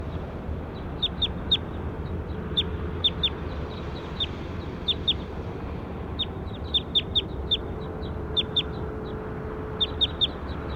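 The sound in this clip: Recorded bird call: many short, high-pitched chirps in quick clusters, repeating over a steady low background hiss.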